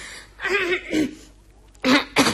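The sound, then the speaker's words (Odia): Coughing: two short, harsh bursts close together near the end, preceded by quieter voiced throat sounds. “ମୋର କାହିଁକି ଆଜି ମଝିରେ ମଝିରେ କାଶ ହଉଛି”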